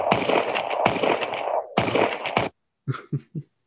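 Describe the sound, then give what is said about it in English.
Gunfire with live ammunition cracks out in several loud, sharp bangs with noisy tails between them, then three softer, short pops follow after a brief silence. “That's that gunfire. They're using live ammo, right?”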